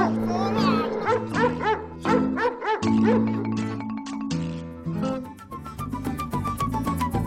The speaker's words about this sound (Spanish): ¡No, perro malo! ¡Suéltame, suéltame!